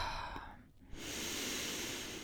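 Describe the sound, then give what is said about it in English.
A deep breath drawn into the belly and then released through the mouth: a soft airy inhale, a brief pause, then a longer, steady hissing exhale. “take a deep breath in into your belly and release the breath through your mouth”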